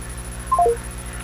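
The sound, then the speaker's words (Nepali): Electronic telephone line tones sound as a call is cut off: three brief beeps in quick succession, each lower in pitch than the last, over a steady faint hum. “उहाँको phone काटिएको छ।”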